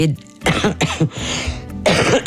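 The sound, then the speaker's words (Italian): Harsh coughing mixed with throat clearing: a few rough, breathy bursts, loud and heard alone with no talk over them. “scusatemi, è la tosse.”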